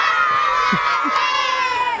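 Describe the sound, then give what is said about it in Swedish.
School students shouting and cheering together, a dense, sustained wash of many young voices at a steady, loud level for the whole two seconds, with no single voice standing out. “Ett till skrik till alla elever.”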